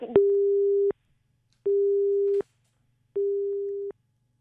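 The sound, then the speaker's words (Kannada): Telephone busy tone after a call is cut off: three even, steady beeps of equal pitch, each a little under a second long, separated by short silences and heard alone. “ಕರೆ cut ಆಯ್ತು.”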